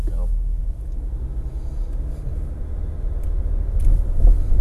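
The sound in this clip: A low, steady engine rumble comes from a line of about fifteen cars idling as they wait in traffic behind a truck, a constant deep drone that swells slightly toward the end.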